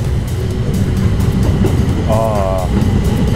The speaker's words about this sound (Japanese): 今この電車通過してってますけども、何でしょう、 新状態によってはね、まあうるさく聞こえがちな電車の音ですけれど、